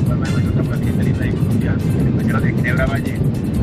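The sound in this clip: Loud, steady airplane engine roar surrounds a phone caller. The dense, unbroken drone holds at the same level throughout, with muffled voice sounds barely showing beneath it.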